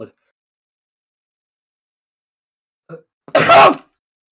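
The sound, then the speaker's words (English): A single hard, explosive sneeze bursts out loud and sharp near the end, preceded by a couple of faint, brief voice sounds amid otherwise near silence. “I just sneezed so hard I knocked my headphones off.”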